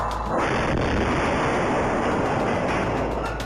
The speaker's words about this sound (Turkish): Fakat tam o sırada özel harekat başkanlığına ilk bomba atıldı.